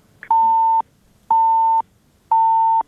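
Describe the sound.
Busy tone of a phone call that fails to connect: three steady mid-pitched electronic beeps of equal length, evenly spaced with short silences between them.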